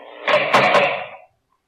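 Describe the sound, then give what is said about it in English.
A prison cell door is opened with a single broad, rattling metallic scrape and clank lasting about a second, then cutting off into silence. “guard, open the cell door”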